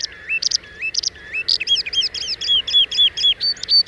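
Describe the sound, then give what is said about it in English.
A skylark sings a rapid stream of high, sliding chirps and trills, the notes quickening into a near-continuous run of many short bursts, clear and alone. “It's the song of the skylark, the bird whose songful brilliance inspired English poets and gave its name to the phrase, an exaltation of larks.”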